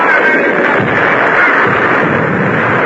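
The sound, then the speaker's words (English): Loud, continuous cannon fire from a ship's deck guns: a dense, unbroken roar of blasts and rumble with no separate shots standing out. “He's showing the guns how to handle the heaviest shots. Fire! His gun is loaded and fired twice as often as any other on deck.”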